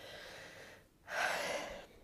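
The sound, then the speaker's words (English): One heavy breath from a person still recovering from COVID: a soft, airy rush that swells after a brief quiet pause and then slowly fades, with no talking. “excuse my big breaths. I'm still getting over COVID.”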